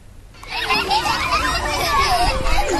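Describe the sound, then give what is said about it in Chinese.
Children's voices fill an outdoor exploration class at a kindergarten in Harbin, where kids play with water and build with blocks. After a brief quiet start, a steady, lively babble of many high young voices continues throughout. “在哈尔滨市南岗第二幼儿园，一堂户外探索课正在进行，孩子们吸水戏耍，搭建积木，自由探索整片空间。”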